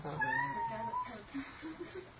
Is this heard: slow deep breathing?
no